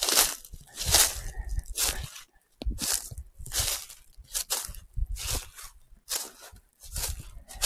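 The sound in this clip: Footsteps crunching along an outdoor walk through sun-dappled woods near Yatsugatake, many steady, gritty steps in an even rhythm with one brief pause partway through, no talking.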